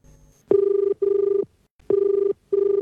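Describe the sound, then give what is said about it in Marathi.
A telephone rings for an incoming call in two double rings, each ring a loud warbling trill, with a brief gap inside each pair and a longer pause between the pairs. “घेऊया कार्यक्रमातला पहिला phone.”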